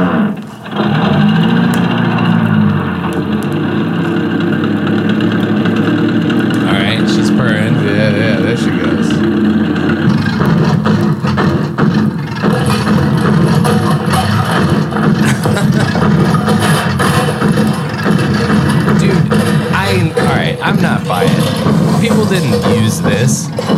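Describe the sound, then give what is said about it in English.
Cartoonish car sound effect: an engine starts, runs, sputters and backfires, then falls apart. A loud, dense rattling drone with wavering pitch runs without a break from start to finish. “This is a car. So this one is a car starting, run, sputtering, backfiring, and falling apart.”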